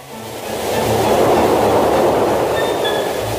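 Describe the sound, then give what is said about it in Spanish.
A train passes near a stream during a family fishing outing, a broad steady rumble that swells within the first second and holds loud and even to the end, with no voices. “¿Viene el tren?”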